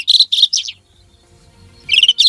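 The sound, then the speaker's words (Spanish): Bright, high chirping song of a rufous-tailed scrub robin, a migratory endangered bird found in Andalusia: a quick run of three loud, buzzy notes, a pause, then two more similar phrases. “Este pajarillo que estamos escuchando cantar es la alzacola rojizo, proclamada ave del año 2022 en la votación popular organizada por SEO BirdLife, una especie migratoria en peligro presente en Andalucía”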